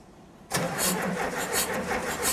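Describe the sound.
A car engine being started: quiet at first, then it suddenly catches and runs with a loud, steady rumble that holds to the end.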